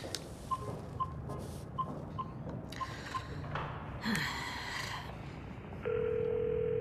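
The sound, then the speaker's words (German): A telephone being dialed to call a gendarmerie: a series of short, faint ticks at an uneven rhythm, followed near the end by a steady, loud continuous line tone. “Ich will sogar die Gendarmerie in Ordebeck anrufen.”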